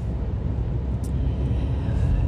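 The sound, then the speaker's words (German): A large truck passes, making a deep, steady rumble that stays loud throughout and swells slightly toward the end. “Jetzt kommt ein großer LKW.”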